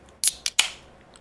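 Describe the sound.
A beer can is popped open with a few sharp, bright metallic clicks and cracks. A brief fizzy hiss trails off after the last crack.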